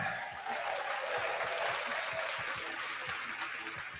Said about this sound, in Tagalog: Palakpakan tayo dyan.